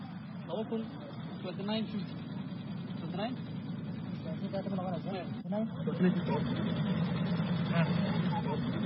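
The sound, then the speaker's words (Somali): Engine rumble of large, heavily loaded trucks driving out of the city toward towns such as Baidoa and Ceel Waaq, a steady low drone running beneath continuous talking. “waxaa kaloo jira kuwa una badan baabuurta waaweyn oo ka baxaya magaalada sida kuwa aadayaan baydhabo oo kale kuwa ceel waqaadayaan”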